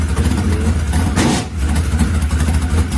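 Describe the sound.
Loud revving of an open-wheel modified race car engine with a four-barrel carburetor, a continuous rough low rumble that dips briefly near the middle before surging back to full strength.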